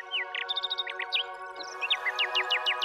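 A nightingale sings bright chirps and quick repeated trills before an emperor's assembled court, the phrases high and clear over a steady, sustained tonal background.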